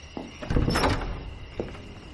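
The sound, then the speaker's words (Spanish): A door is opened by a butler at a house at night, in a spy thriller scene: a soft click, then a longer scraping swing with a thud, and a faint knock-like tap near the end. “Espera junto a la puerta y le abre un mayordomo.”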